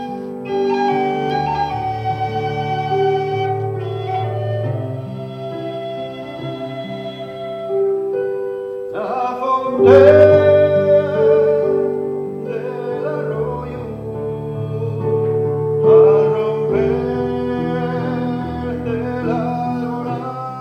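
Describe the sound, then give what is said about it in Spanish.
A man sings a lullaby from a book that was set to music and performed at the book's presentation. The melodic vocal line runs over sustained instrumental accompaniment, steady and moderately loud, and swells around the middle. “le pusimos música a esa nana, a la nana del libro y bueno, y la interpretamos en la presentación.”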